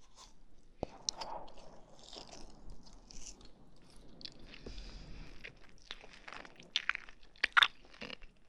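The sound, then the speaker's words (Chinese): Faint crunching and biting on food, soft wet chewing with scattered crisp bites that grow sharper and louder toward the end, with no voices. “不要这么吃啊！这么吃的话，我不想花的。慢慢的吃，细嚼慢咽”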